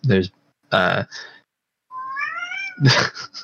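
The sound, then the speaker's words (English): A cat whines, letting out one drawn-out, rising meow between short bursts of people talking. “and there's my cat whining in the background.”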